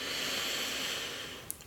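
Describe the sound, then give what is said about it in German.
A deep breath in: a steady, airy hiss of inhalation lasting about a second and a half that gently tapers off, heard alone and fairly faint. “Atme tief ein”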